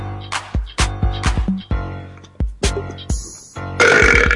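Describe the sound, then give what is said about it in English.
A string of loud, deep burps from a person showing off, one after another with short gaps in between, ending in a harsher, noisier burst. “I can bust some serious burps.”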